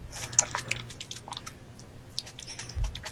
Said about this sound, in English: Mukbang. It's a mukbang.